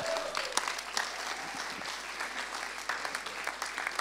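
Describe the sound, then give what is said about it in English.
A standing audience gives dense, steady applause to welcome a pastor as he is introduced, with the clapping sustained at an even level throughout. “Ladies and gentlemen, why don't we stand and put our hands together for Pastor Dr. Shane Willard.”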